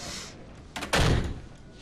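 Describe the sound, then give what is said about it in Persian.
A door being closed: one dull, heavy thud rises sharply from a low background hum, then fades quickly. “در رو پشترت ببند.”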